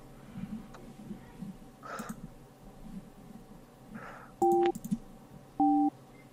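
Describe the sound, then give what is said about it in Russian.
Telephone busy signal after dialing a number: two short dual-pitch beeps separated by a brief pause, preceded by faint clicks and low background murmur. “Вижу, набираю.”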